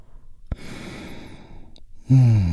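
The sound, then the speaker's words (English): A group draws a deep breath together and lets it out in a long, airy, even rush of breath. It ends in a louder voiced sigh. “We do that by taking a big, deep, healing breath all together. Here we go. And release.”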